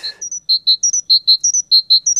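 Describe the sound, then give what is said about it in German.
A great tit sings a bright, high two-note phrase over and over in an even, bouncing rhythm, the repeated calls clear and fairly loud with no other sounds around them. “die Vögel pfeifen wieder. Und wie? Das ist der Star vom Tag, die Kohlmeise da.”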